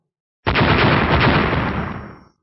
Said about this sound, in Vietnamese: Liên tiếp tiếng nổ vang lên